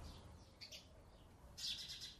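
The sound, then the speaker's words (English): Male sparrows chirp angrily near a nest in a hole in a wall in Khartoum, giving faint, high, scratchy calls in two short bursts, the second one louder. “Now there's two male sparrows in different areas yelling at me.”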